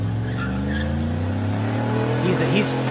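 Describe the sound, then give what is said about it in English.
Car tires skidding as a driver lays skid marks across an intersection. A loud, sustained engine drone with layered tire-squeal tones wavers throughout, and a few short squealing swoops rise near the end. “it's a bit more dangerous to skid the way he did.”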